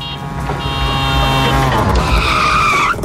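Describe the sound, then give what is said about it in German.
A tuk-tuk auto rickshaw engine drones loudly and continuously with a harmonic, buzzing tone, then shifts upward near the end as a squealing, skid-like sound rises over it. “Koh Samui steht an und das Tuk-Tuk klingt so.”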